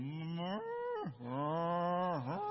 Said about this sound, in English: he's become quite famous on TikTok because of the way he calls his cows. And this is how he calls his cows. Hey, cow! And then you can hear on his video,